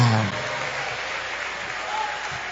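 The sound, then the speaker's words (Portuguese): Applause from a church audience praising God during a worship service: steady, dense clapping throughout, with voices mixed in. “palmas que louva o Senhor, aleluia”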